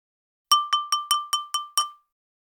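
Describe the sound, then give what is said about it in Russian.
A spoon taps on a glass of water seven times in a quick, even rhythm. Each bright, clear clink rings briefly at a high pitch before fading. “Затем Драко взял в одну руку ложку, а в другую стакан воды, и начал постукивать ложкой по стакану.”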